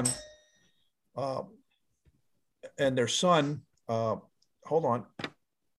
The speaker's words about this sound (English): I'm sorry, there was the doorbell.